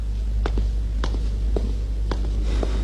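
Five evenly spaced footsteps of someone walking away, each a soft, moderate thud over a constant low hum.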